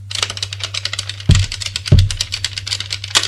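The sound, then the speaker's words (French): Typewriter typing on a police officer's desk: rapid, irregular key clicks patter along, broken by two heavier, louder strikes in the middle, with no voices. “Un autre flic, sur notre table, a une machine à écrire.”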